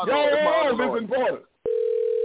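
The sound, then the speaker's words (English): A steady telephone dial tone sounds while someone calls a person on the phone. It is a single unbroken hum that follows a man's short burst of speech and a brief pause. “I'm trying to get somebody on the phone right now.”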